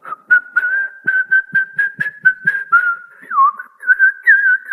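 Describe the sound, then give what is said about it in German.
A person whistles a cheerful song alone, clear and fairly loud: a run of short, mostly level notes with a brief downward swoop partway through. “Ja, da kann man sogar pfeifen.”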